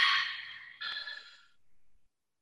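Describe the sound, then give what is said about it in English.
A deep open-mouth exhale at the close of a guided breathing practice: one long, airy rush of breath with a second push partway through, fading out over about two seconds. “Taking a deep breath in and open mouth, exhale it all out.”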